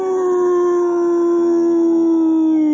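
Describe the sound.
A wolf howls inside a movie theater: one long, loud, sustained tone that drifts slightly lower in pitch across its length, heard alone.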